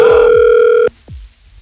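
A telephone line tone sounds while calling someone: one steady, bright, buzzy tone holds for just under a second, then cuts off with a click into near silence and faint low rumbles.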